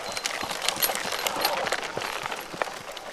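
Hooves clip-clop steadily as a harnessed workhorse trots in a tight circle to power a cane-crushing mill. Many quick, fairly faint hoof strikes fall in an even rhythm with no talk.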